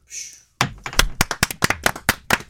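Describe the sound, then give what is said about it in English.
A samba-beat jingle tapped and clapped by hand: many sharp, dry hits in a fast, syncopated rhythm, played alone without talk. “That was my jingle. Oh, that was a jingle? Yeah. Okay. It's a samba beat, mate.”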